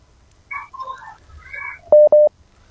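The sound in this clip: Two short, steady telephone dialing tones sound as a phone-in call is placed. They follow each other quickly with a tiny gap and are much louder than the faint, scattered tones before them.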